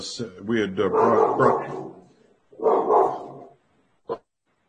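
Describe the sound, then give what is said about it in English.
Dogs bark in two drawn-out, loud bursts, then let out one short final bark after a brief pause. “sorry, I have dogs here.”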